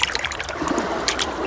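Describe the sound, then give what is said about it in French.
A paw stepping into sea water, soft light splashes and trickling dabs, faint and brief, with no voices. “Il met une patte dans l'eau. Puis l'autre.”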